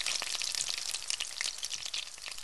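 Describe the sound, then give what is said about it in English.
Potatoes frying in hot oil give a steady, loud sizzle with dense crackling and popping that runs without a break and with no voices. “you get to fry potatoes up in oil, and that's pretty good too.”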